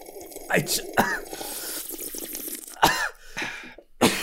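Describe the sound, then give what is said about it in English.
Coughing after accidentally inhaling cola: a few sharp, harsh coughs and splutters separated by rough throat noises and wet, gurgling breaths, ending in one more abrupt cough. “I inhaled some Coke. What happened there? Oh dear. I think I nearly died.”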